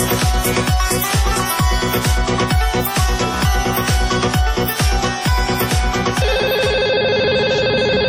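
A telephone ringtone in an employment agency office: a loud electronic pattern of many rapid, rhythmic pulses that gives way to a sustained, steady ringing tone near the end.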